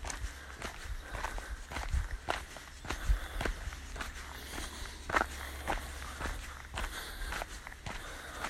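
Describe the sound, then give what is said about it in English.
Footsteps walk along a ridge path after a long climb, with many quiet, steady, evenly spaced steps crunching in a continuous rhythm. “back on the ridge walk, having just done the big walk up.”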